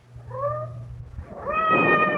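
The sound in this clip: A cat meows twice over a low steady hum: first a short, thin call, then a louder, longer, drawn-out meow.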